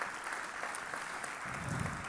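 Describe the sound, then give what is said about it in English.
Audience applause after people came up to share their stories of bravery: steady, dense clapping that holds evenly for about two seconds at a fairly soft level. “Hey, another round of applause.”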